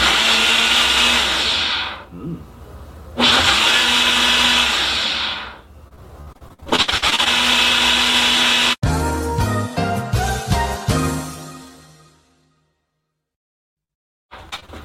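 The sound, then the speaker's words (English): A Ninja blender whirs loudly as it blends a healthy shake, running in several roaring bursts with short pauses between them. The motor noise changes texture before stopping abruptly, leaving near silence and one brief noise at the end. “Now, I use the Ninja, so watch this. Screw it on. Now this may be loud.”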